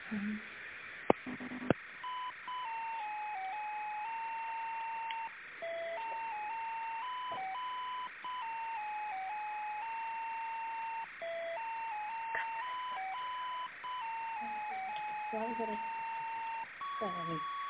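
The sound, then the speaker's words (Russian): A simple electronic melody plays over the telephone line while a call is being transferred, with steady beeping notes stepping up and down in pitch and brief gaps, continuing throughout. “А кто занимается у вас закупками, аукционами, тендерных специалист? Ну, давайте вас переключу. Сейчас, секундочку.”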